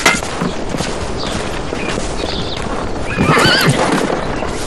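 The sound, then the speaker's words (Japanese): A horse neighs amid the steady clatter of clip-clopping hooves; a loud, wavering whinny breaks out near the end over the continuous, noisy hoof beats. “じゃあお前はこういうの馬に触れんの。”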